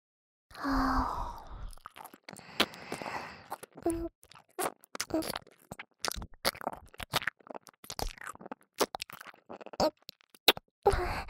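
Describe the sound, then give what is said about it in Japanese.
A swallowing gulp in a roleplay of swallowing earwax, amid many wet mouth clicks and smacks after an opening breathy sigh. The sounds are close, soft and irregular, with no talk. “あるじ様の大好きな耳かすごっくん、聞かせてあげますね。”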